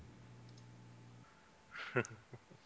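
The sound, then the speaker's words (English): Computer mouse clicks, a mouse with a fault that stops it from single clicking, while a player waits to reconnect to an online game server. A few sharp, short clicks come in close succession near the end, after a steady low hum. “when I can get my mouse to single click.”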